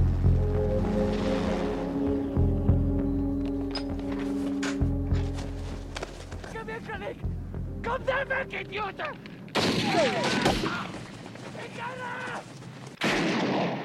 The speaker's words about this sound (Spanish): ¿Por qué estarían volando tan bajo? Disparándole a un perro y a nosotros.